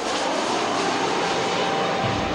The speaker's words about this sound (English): And when that plane lands in Los Angeles, there you are.